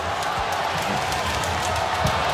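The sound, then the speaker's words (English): Crowd noise at an Australian rules football match involving Geelong, a steady broad roar of spectators rising into cheering throughout. “And the crowd coming into it now, too. Oh, yeah, they're a big crowd.”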